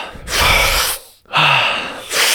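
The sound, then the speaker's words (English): Big deep breaths during a breathwork exercise: three loud, airy rushes of breath with brief quiet gaps between them, rhythmic and forceful, with no talking. “10 more. Big breaths. Fully in. Let go.”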